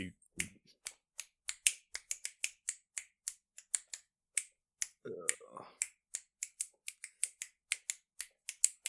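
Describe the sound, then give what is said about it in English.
Finger snapping in a quick, drumming rhythm, many crisp dry clicks repeated steadily, with a brief murmur of voice partway through. “Probably just sounds like snapping, but in my head, that sounds like I'm snapping.”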